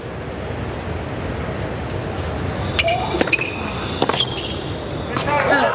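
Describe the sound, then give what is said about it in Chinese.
A tennis serve in a professional tournament match: a few crisp, ringing ball strikes and bounces over a steady crowd murmur, with a voice talking. “好发球。”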